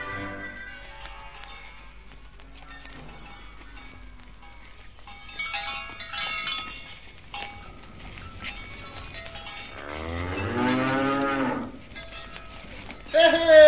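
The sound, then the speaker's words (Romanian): Cattle from a village herd low and moo as they return from pasture. Faint scattered herd noises lead up to one long, loud, drawn-out moo, followed by quieter rustling. “așteptând pe Joiana care se întoarce cu cireada satului de la pășune”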